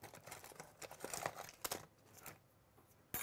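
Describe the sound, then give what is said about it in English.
Someone trims a small piece of tape, producing quiet crinkling and rustling with a few sharper crackles and snips. The sounds are scattered and soft throughout, and no one speaks. “And I'm going to trim my tape into a small little piece and grab some tweezers”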